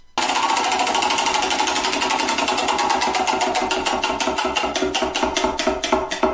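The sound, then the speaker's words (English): A prize wheel spins with a rapid, steady run of ratcheting clicks that continues throughout, the ticks spacing out slightly toward the end. No voices are heard. “let's just go to the Wheel of Destiny because we haven't done that in a while and I don't feel like making a decision today.”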